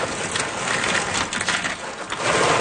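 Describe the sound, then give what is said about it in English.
A couple of pounds of organic unshelled pistachios pour from a plastic bag into a clear glass bin in a shop, producing a dense, continuous rattling clatter of shells. The steady patter stays moderately loud and swells slightly toward the end. “pours a couple of pounds of organic, unshelled pistachios into a clear glass bin”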